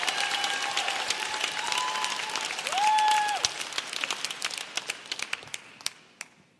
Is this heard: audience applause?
yes